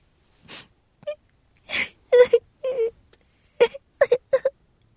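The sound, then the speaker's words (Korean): A young granddaughter sobbing on her grandmother's lap, a series of broken, breathy gasps and short, wavering wails in uneven bursts, with quiet pauses between them. “무릎 위에 손녀가 흐드득 흐느끼는 소리에 오씨는 생각에서 깨어났다.”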